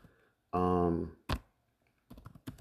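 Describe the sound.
Computer keyboard typing while an email is composed: a few sharp clicks and taps separated by pauses, with a brief sustained tonal sound near the start.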